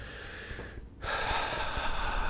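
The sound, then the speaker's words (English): A single deep breath is taken during a hand-tapping exercise. It is a soft, airy rush of air that grows louder and fuller partway through. “Take a nice big deep breath as you tap on the side of the hand again.”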